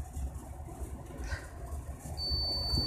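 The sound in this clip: A single high electronic beep from an appliance sounds while coffee is being made. The steady tone holds for under a second near the end, over a low, constant background rumble.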